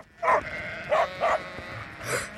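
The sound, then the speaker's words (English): Sheep running around on a farm bleat loudly, with four distinct, tonal bleats spaced out over a quiet background and no voices. “The sheep are running around.”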